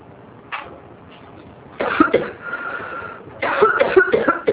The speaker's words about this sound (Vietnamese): xin lỗi tự nhiên tôi bị ho